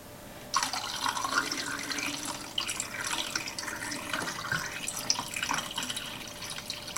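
Water running steadily from a tap during the final wash of developed black-and-white film, a continuous hissing, splashing rush that begins after a brief quieter moment and carries on evenly.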